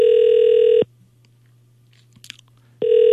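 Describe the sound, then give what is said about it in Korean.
Telephone ringback tone of an unanswered call to a landline: two steady, buzzy tone bursts separated by a long silent gap, with no talking. “왜 전화를 안 받으시지?”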